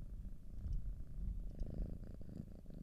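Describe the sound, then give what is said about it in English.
A cat purring with a soft, steady low rumble that runs continuously and evenly, with no other sound over it. “She's a purr. Like, let's see if we can capture her purr.”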